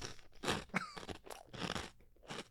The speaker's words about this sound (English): And we're going to eat it live on the show. Yeah, okay. Here we go. Let's try one.